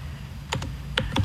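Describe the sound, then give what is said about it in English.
Keystrokes clack on a computer keyboard as a website address is typed in. Four sharp clicks fall in two quick pairs over a low background hum. “I'm just typing it in.”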